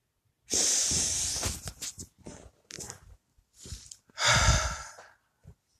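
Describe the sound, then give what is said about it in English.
Deep breaths at the start of a calming, stress-relief breathing exercise: loud, airy, sigh-like breaths drawn in and let out, one long breath opening the sequence and another strong one near the end, with quieter breathy sounds between. “So let's begin. 3 deep breaths.”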